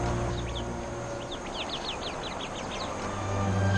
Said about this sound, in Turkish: Bu arada genç kuşlar yılana meydan okuyarak güç ve cesaretlerini kanıtlar ve grup içinde saygınlık kazanmaya çalışırlar.